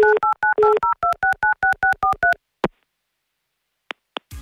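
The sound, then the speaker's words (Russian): Touch-tone beeps of a telephone number being dialed, a quick, evenly paced run of many short two-note tones, followed by a single click and a couple of brief higher tones. “Сейчас, да, есть у нас связь, и давайте его номер мы прямо сейчас и наберем.”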